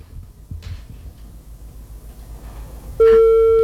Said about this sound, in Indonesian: Yaudah, diterima dulu deh teleponnya ini.